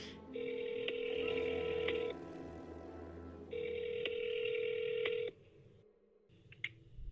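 An outgoing telephone call rings: two long, even ring tones separated by a pause, over a low background hum, with no talking.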